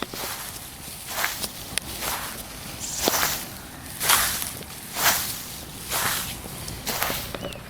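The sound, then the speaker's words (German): Footsteps crunch through frozen grass and moss covered in hoarfrost in a garden, a steady series of sharp, gritty crackles at a walking pace, each step distinct and fairly loud over a low background rumble. “Das Knirschen meiner Schritte hier im Raureif, im gefrorenen Gras und Moos von unserem Garten. Hört ihr das?”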